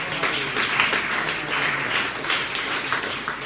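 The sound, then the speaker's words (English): A church audience applauds to welcome first-time visitors, a steady wash of many hands clapping with no voices over it. “Would you put your hands together and give a warm welcome to them?”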